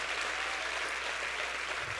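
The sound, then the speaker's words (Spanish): A church audience applauding during a service, with steady, dense clapping that holds at an even level from start to finish. “Que aplauda al creador del universo.”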